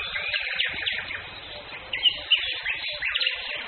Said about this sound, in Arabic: ممكن تصمتوا يا جماعة، نسكت 10 ثواني؟ انا اصوات الطيور اللي هنا شيء انا ما حسيتوش قبل كده في حياتي، عمال سامحهم حواليا كل ثانية.